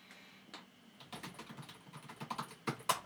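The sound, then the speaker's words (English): Typing on a computer keyboard, a search term entered into a search engine: many quick, irregular key clicks, faint at first and growing louder and denser, with no talk. “I type the word C into Google, and it immediately fills up Chris Jericho.”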